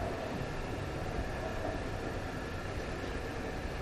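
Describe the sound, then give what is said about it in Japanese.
Steady rumble of a sleeper express train running along the line past the town of Akashi, a continuous low roar with an even hiss that holds at a constant level throughout, with no voices. “寝台特急那覇赤月号は時刻表通りに四号線の町明石を通過いたしております。”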